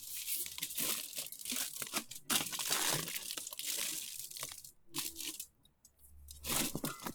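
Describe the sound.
Aluminium foil crinkling and crumpling almost continuously for several seconds, a bright, crackly rustle that surges and eases, with one brief pause near the end.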